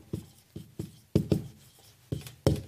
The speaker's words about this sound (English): Let's write that up here.